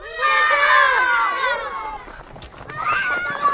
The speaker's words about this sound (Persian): بچه ها به سرعت به طرف بساط بستنی فروشی میرن.